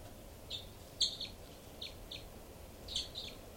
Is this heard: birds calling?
yes

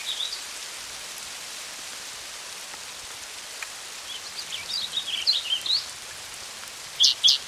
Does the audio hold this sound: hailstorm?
yes

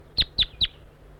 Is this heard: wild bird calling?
yes

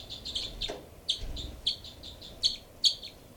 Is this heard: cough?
no

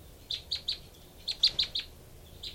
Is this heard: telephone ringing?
no

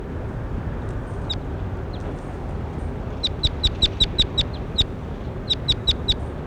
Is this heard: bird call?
yes

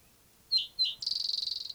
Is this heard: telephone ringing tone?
no

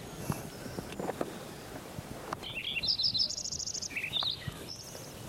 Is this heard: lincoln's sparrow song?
yes

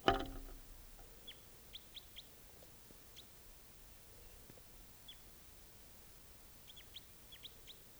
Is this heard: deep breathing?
no

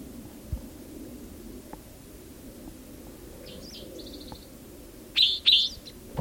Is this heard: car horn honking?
no

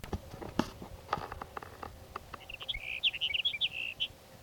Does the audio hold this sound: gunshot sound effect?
no

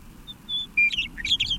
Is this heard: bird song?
yes

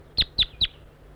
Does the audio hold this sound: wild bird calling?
yes

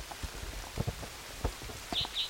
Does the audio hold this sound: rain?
yes

